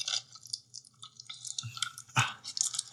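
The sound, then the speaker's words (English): Close, wet chewing and mouth clicks from an ASMR eating recording: many irregular smacks, crunches and sticky pops at a fairly quiet level, with one louder burst of crunching near the end. “This isn't like the nice, calming ASMR. This is like the eating.”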